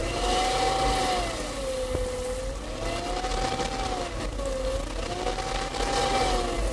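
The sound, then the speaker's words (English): A vacuum cleaner runs upstairs in a home on a Saturday morning: a loud, steady whirring drone whose whine slowly rises and falls in pitch over and over. “And upstairs, we find Mother with a vacuum cleaner.”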